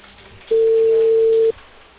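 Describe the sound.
A telephone ringback tone sounds while a call is placed: one steady, mid-pitched tone lasting about a second, loud over faint background hiss.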